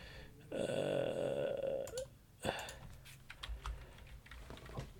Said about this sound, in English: You just type in Florida man, and you type in August.